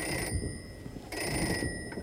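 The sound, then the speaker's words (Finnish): A field telephone rings at a wartime frontline post while artillery fire is being discussed. It gives a steady, bright electric ringing over a low rumble, breaks off briefly near the middle, then rings again to the end. “Kunto 2 soittaa Feltta-puhelimessa.”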